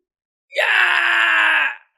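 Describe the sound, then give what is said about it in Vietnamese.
A man's scream of pain after repeated blows to the stomach in a fight on a dueling platform: one loud, strained, sustained cry lasting just over a second, heard alone, beginning abruptly and then cutting off. “Thái Đà hét thảm”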